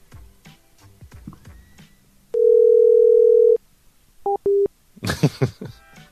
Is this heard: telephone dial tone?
yes